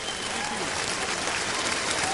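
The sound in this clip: Sustained applause from a joint session of Congress as the President approaches the lectern, with members standing and clapping in a warm bipartisan reception. The clapping forms a steady, even roar at moderate level.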